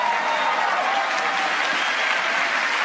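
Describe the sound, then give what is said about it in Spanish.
Audience applause at a motivational talk on positive affirmations: a steady, dense wash of clapping that holds at an even loudness throughout, with no talk over it. “Si me van a aplaudir, apláudanme bien, por favor.”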